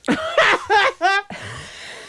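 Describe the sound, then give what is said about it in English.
Harsh coughing from people choking on hot sauce during a spicy wing-eating challenge. A few short, voiced coughing bursts come in quick succession, then a breathy, rasping tail. “We're all choking on hot sauce at this point.”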